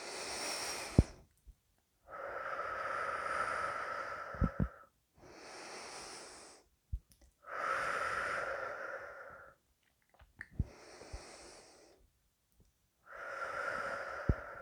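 Deep, slow breaths drawn during a guided breathing exercise: about six long, airy breath sounds, each separated by a short pause. Longer and shorter breaths alternate, with a soft wheezing rasp, and no one speaks.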